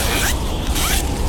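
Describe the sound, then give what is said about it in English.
The zipper of a child's new winter coat is drawn up in quick, scratchy rasps. Two brighter surges of toothy grinding sit within a continuous close zipping noise. “That's the sound of a child zipping up their new warm winter coat that you donated.”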